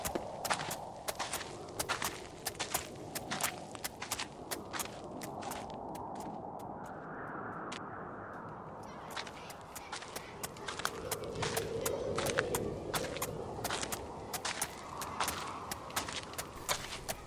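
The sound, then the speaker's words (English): A cartoon unicorn's hooves walk along in a long run of many quick, light clopping steps that keep an even rhythm over a soft background. “My hoofs are getting tired. We've been walking for a long time.”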